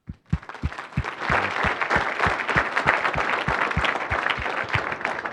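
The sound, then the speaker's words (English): Audience applause welcoming a guest speaker to the stage at a talk on a Roman Catholic view of the Reformation: dense, steady clapping that swells quickly after a few opening claps and holds at an even level throughout. “So please give him a warm welcome as he comes up, and we will begin.”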